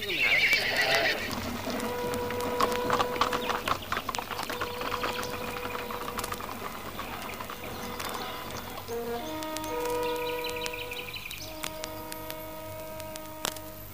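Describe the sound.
A startled horse gives a loud, high whinny at the start, followed by a rapid stream of hooves clip-clopping over a background of sustained musical tones.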